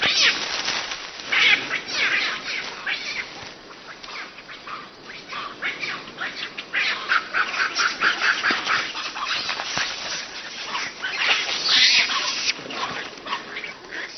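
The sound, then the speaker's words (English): Young macaques play rough and tumble, giving many shrill squeals, squawks and chattering calls in loud, overlapping bursts that continue throughout. “Grooming is all very well for grown-ups, but young macaques have energy to burn.”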